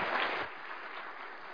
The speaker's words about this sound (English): So come on up, Will, and share with us. Please give him a warm welcome.